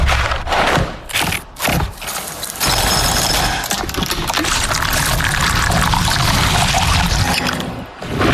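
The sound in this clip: Ice-cold milk is poured over Kellogg's cereal. A few short splashy bursts lead into a continuous, loud rushing pour.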